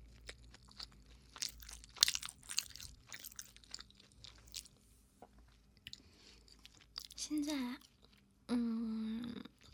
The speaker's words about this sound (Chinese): 我在吃饭的。